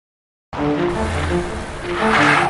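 Car braking hard with tires skidding: an abrupt, loud rushing roar over a low engine hum that holds steady and swells slightly toward the end.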